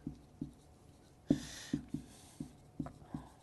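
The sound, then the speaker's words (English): Handwriting: a pen scratches out several short, separate strokes in an uneven rhythm, with one stronger stroke near the middle. The scratches are faint and clear, with no talk over them. “Number eight would be now, create. This is where my writing gets really bad.”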